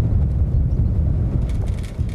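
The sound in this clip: Gusting wind buffets outdoors in an earthquake-damaged town, a loud, continuous low rumble with no voices.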